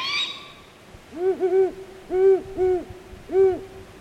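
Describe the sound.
A juvenile owl calls to its parents at night in five clear, hooting, slightly wavering calls. They come in a loose run, two close pairs and then a single call, each steady in pitch over a faint background hiss.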